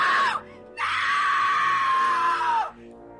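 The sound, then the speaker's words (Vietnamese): A woman screams in anguish: first a brief high cry, then after a short pause a long, piercing sustained wail that drops in pitch as it breaks off. “Rồi bất chợt bác ta hét lên vô cùng thảm thiết”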